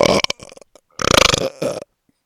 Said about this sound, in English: My burps smell like chicken fingers, pizza, and bagel bites.